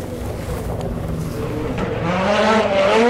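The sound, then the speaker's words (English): Engine of a Ford rally car passing at speed close to a dry stone wall, a rough roar that swells steadily louder, with its pitch climbing toward the end. “It's a Ford.”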